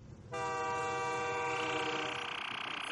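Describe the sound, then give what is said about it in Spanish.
A train horn sounds in one loud, sustained chord of steady tones that begins abruptly and holds for over two seconds above a low rumble. “súbete al tren, súbete al tren”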